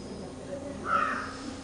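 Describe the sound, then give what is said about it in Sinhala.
A crow caws once, a short, harsh call standing out faintly above low background noise. “දැන් සද්ද ඇහෙනකොටනේ හිතන්නේ කාක්කෙක් ඉන්නවා කියලා නේද?”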